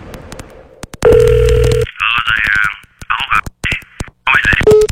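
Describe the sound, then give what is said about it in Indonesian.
A choppy, breaking-up phone connection effect from a radio ad: a steady tone gives way to a voice chopped into clipped fragments by sudden dropouts and glitches, cutting on and off. “Jangan biarkan hubunganmu putus-putus kayak koneksi yang gak stabil.”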